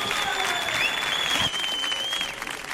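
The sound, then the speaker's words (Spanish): An audience at a comedy show at the Auditorio Cartuja applauds vigorously. Dense, steady clapping holds for about three seconds, with a high whistle-like tone running above it. “mira lo que está disfrutando este público que suena de esta manera tan brutal.”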